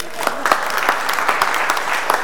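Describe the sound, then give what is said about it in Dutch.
Applause for a child during a church talk: steady clapping with sharper individual claps poking out, and voices mixed in beneath it. “Applaus voor Rinke.”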